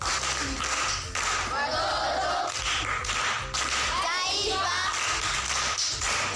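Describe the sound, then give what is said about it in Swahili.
Primary school pupils clap for a visiting guest, producing scattered sharp claps mixed with lively children's voices and crowd noise that continue throughout. “Makofi kwa mjomba.”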